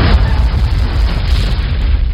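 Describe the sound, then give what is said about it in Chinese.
Large boulders tumble and bang down a hillside in a loud, continuous low roar with no clear gaps between impacts. “山头上砰砰砰一阵响，滚下好多大石头，挡住了前后的路”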